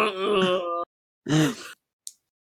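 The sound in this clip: A male villain character groans: a long, drawn-out voiced moan, then a shorter groan that rises and falls in pitch, followed by a brief breathy hiss.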